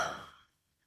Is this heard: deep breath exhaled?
yes